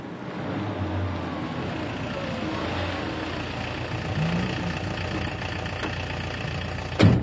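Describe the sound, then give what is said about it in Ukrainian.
A taxi engine idles with a steady, low, mid-pitched rumble throughout, broken by a sharp clunk near the end. “Доктор Тюрман просить водія таксі відвести його до готелю Європа.”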